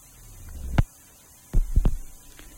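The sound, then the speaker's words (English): A record player needle rides a vinyl record, giving a low steady hum with a few dull thumps breaking through. “And you can even hear the needle on the record.”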